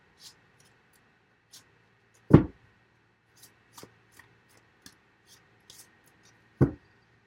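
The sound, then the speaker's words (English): Tarot cards being drawn from a deck: two louder taps of cards against a surface among several faint clicks and soft rustles, sparse and quiet, with no talking. “Let me get a couple cards on this Four of Cups.”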